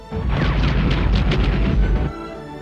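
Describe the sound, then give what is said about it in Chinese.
A loud, sustained boom-like roar of cannon fire as a fleet of space warships opens fire. It lasts just under two seconds, holds dense and steady throughout, then cuts off abruptly. “全舰开始炮击。”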